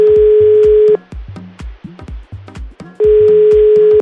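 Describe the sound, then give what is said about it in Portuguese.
A telephone dial tone while placing a call: a loud, steady single-pitched tone holds for about a second, breaks into many short irregular blips, then returns unchanged for another second. “Ai, vamos ligar pro Anderson, a gente já volta.”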